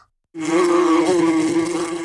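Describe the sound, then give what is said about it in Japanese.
A bee buzzes as it flies in, starting suddenly after a brief silence and then holding a loud, steady droning hum with a slight waver until the end. “ほら、ハチさんがブーンって飛んできて。”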